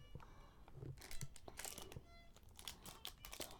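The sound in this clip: Hard candy drops are poured out onto a paper bag, a quiet scatter of small clicking taps and papery crinkles spread over a few seconds with no steady rhythm.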